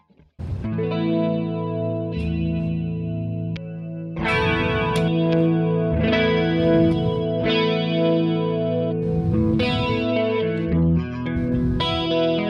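Electric guitar chords played through a Quad Cortex effects unit with a grungy, chorus-laden, lightly distorted tone: a series of strummed chords, each held and left ringing, loud and alone without talk.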